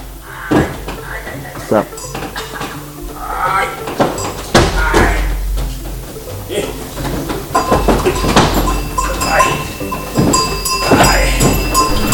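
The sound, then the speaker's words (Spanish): A man walks in wooden clogs through a presentation, and his clogs give irregular hard clacks and knocks while people talk over them. “Nos interrumpió un hombre que caminaba con unos zuecos de madera”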